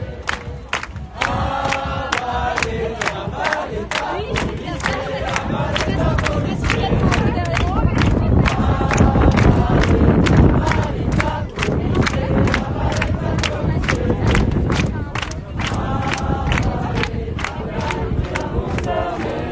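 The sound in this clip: A protest crowd chants loudly after police charges while crossing the Portneuf neighbourhood, with steady rhythmic clapping driving the voices throughout.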